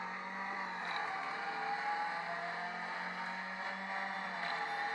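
Steady racing car engine drone from an iPad racing video game in cockpit view, with the throttle applied automatically; a continuous, even, fairly loud buzzing roar with slight swells and no voices.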